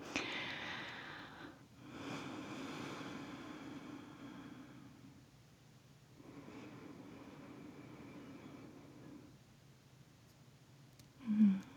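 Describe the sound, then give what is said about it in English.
Someone breathes out fully and then draws in the fragrance of tea. The breathing is soft, airy and faint, with long exhale and inhale sounds separated by quiet gaps. “To do this, we're going to breathe out all air and then immediately breathe in the tea.”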